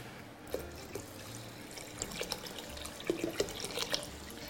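Water poured into a plastic bottle makes a soft, steady trickle with scattered small splashes and gurgles, quiet throughout.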